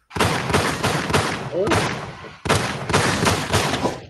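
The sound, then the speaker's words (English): A gunshot sound effect plays as a loud, rapid volley of shots lasting about two seconds, then breaks off briefly before a second dense burst of gunfire. “Shots fired. Hit the damn button.”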